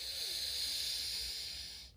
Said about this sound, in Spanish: Inhalamos por el lado derecho